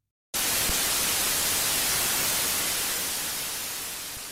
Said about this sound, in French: La neige télévisuelle.